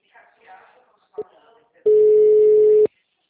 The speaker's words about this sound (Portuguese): Sim, a ligação caiu.